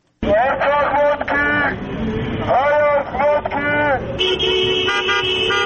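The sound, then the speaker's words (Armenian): Car horns honk in a slow opposition protest motorcade driving through city neighbourhoods. Several loud, overlapping blasts of varying length come in uneven bursts, ending in a sustained horn tone. “Փաշինյանի հրաժարականը պահանջող ընդդիմադիրներն այսօր էլ մայրաքաղաքի տարբեր թաղամասերում ավտոերթեր իրականացրին։ Մեքենաները դանդաղ վարելով նրանք մյուս վարորդներին, անցորդներին կոչ էին անում միանալ”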